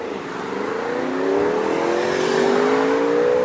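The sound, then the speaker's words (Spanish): A motorcycle passing along a street, its engine a loud steady drone whose harmonics climb gradually in pitch as it grows a little louder, with broad road noise throughout. “¿Escuchaste la moto?”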